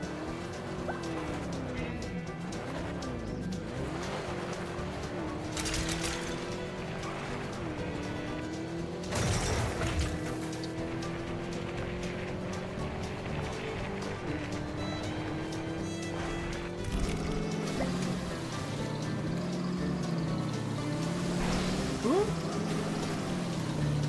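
Motorized whine of a Mars rover vehicle driving in a video game, a continuous hum whose pitch wavers up and down over a low rumble.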